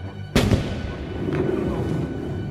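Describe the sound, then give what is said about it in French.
A ship's cannon aboard a frigate fires at a whale with one sudden, loud boom. A decaying rumble follows over steady low background noise. “Monsieur voudra sans doute se boucher les oreilles, le canonnier de l'Abraham Lincoln va tirer sur l'animal.”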